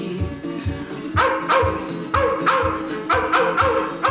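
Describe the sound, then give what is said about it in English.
Dogs bark in a loud, repeated run of bursts with a steady rhythm throughout. “Oh, their savage howls, the devil's blood would freeze. The wild dogs of Kentucky, the wild dogs of Kentucky.”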